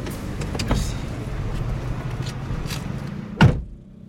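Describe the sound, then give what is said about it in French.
A car pulls away after a passenger gets out, its engine a steady low hum throughout, broken near the end by one solid thump, after which the noise grows quieter. “Elle descend. La voiture redémarre.”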